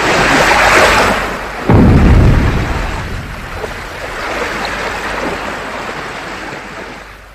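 Rough sea water churning and surging where a prince has been thrown from a window into the sea, in a fairy tale. A loud, continuous rushing roar swells in a sudden deep surge partway through, then eases into a steadier wash.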